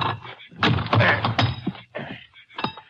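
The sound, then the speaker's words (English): An iron bar pries at a fairly new lock, producing a series of heavy clunks and grinding, strained metallic scrapes in irregular bursts. “Piece of iron bar line over here. See if I can pry that lock off. A fairly new lock by the look of it.”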